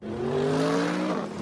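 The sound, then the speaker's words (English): A 2015 Mercedes-Benz CLA accelerates out of a hairpin turn. Its engine gives a loud, sustained whine that climbs slightly in pitch, with faint tire noise underneath. “That isn't just the sound of the 2015 Mercedes-Benz CLA expertly accelerating out of a hairpin turn.”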